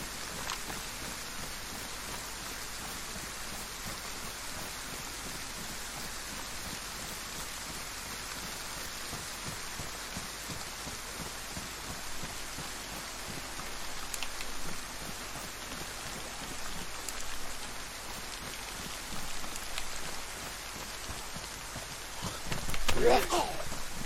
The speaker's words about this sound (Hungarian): Már mondjuk annak is tudnék örülni, hogyha elállna ez az átkozott eső.